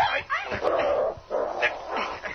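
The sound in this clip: A dog whimpers and yelps as men try to tie it up, giving several high, whining cries with bending pitch, separated by short breaks.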